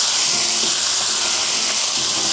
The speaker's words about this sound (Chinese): 然后把土豆块倒入锅中，加入少许的盐，再加入少许的生抽，再加入一些水，把火开到中火，